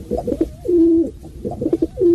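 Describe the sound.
A pigeon coos in two repeated phrases of throaty, bubbling notes. Each phrase ends in a drawn-out, steady low coo. The cooing is loud and clear, with no other sounds.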